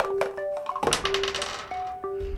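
A die rolled during a board game makes a brief rattling clatter of quick knocks, fairly faint, with no talk over it.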